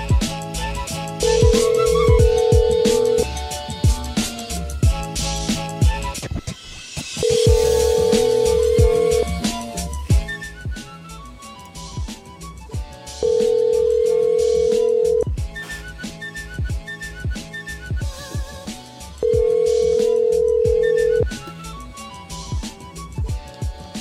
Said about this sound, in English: Come on, machine, dial. Ah, try again.